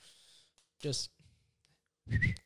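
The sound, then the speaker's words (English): A person gives a short whistle to get someone's attention, voiced as an imitation. It is a single brief, rising tone that follows breathy, hushed vocal sounds. “She whistled to you.”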